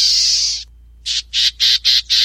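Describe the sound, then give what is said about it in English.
Black-tailed gnatcatcher call: one sustained, harsh, high buzzy note, a brief pause, then five short, evenly spaced buzzy notes of the same pitch, loud and alone. “While the equally small black-tailed gnatcatcher puts it like this.”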